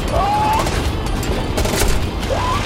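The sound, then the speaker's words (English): M16 rifles fire at a fast-moving creature in a tense fight, producing many rapid, sharp cracks over a loud, dense, rumbling background. “I hit it! But the M16s aren't doing anything!”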